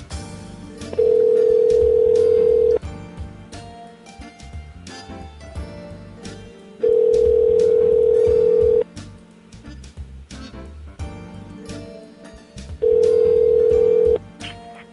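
Telephone ringback tone heard while a call is being placed: three long, steady, even tones of about two seconds each, evenly spaced, over a busy background of noise.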